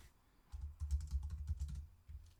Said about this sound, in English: I'm going to type it in the chat and see if it's right.